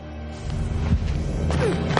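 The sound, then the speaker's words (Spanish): A stone is thrown at the giant snake Nagini during a battle scene in a Harry Potter fantasy film, landing with a few dull thuds and cracks over a low rumbling background. “Una piedra cae sobre Nagini. Hermión está en las escaleras con su varita. La serpiente se arrastra por un rellano. Ella la mira tensa y le lanza otra piedra.”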